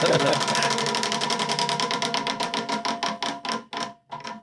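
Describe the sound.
A prize wheel clicks through a long run of rapid ticks that gradually slow and spread apart until it stops, spun during a Bible class with students.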